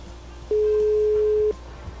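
A telephone tone for an outgoing call that goes unanswered: one steady, mid-pitched tone lasting about a second, rising out of faint background noise and then stopping.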